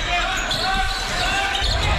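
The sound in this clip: Basketball dribbled on the court during a high school boys' game: bounces sit under steady, loud crowd noise and a talking voice.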